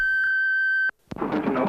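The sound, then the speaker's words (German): An answering machine beep: a single steady, high electronic tone holding for just under a second before cutting off abruptly, followed by a brief silence. “Bitte hinterlassen Sie nach dem Signalton Ihre Nachricht und Telefonnummer.”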